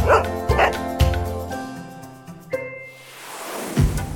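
A dog named Altai barks a few times in sharp bursts, followed by sustained tonal notes and a final low thump.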